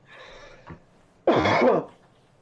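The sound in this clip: Throat clearing by a person: a soft, short rasp first, then after a brief pause one loud, harsh clearing burst that fades off quickly.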